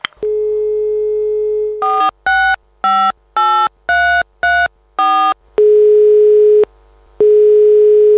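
Telephone dial tone while a call is placed: a steady loud hum, then a quick run of touch-tone keypad beeps at varied pitches, then two long steady tones separated by a short gap, with no talk.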